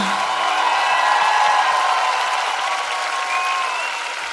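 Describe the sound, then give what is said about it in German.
Applause from a crowd, a dense, steady patter of clapping at a fairly loud level that eases off slightly toward the end, with a faint tonal hum mixed in. “Applaus für die wunderschöne Laila.”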